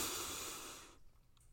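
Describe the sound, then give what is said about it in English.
A group breathes in together during a guided breathing and prayer exercise. One long, airy inhale lasts about a second, then fades to near silence. “So let's breathe together three times. Inhale grace.”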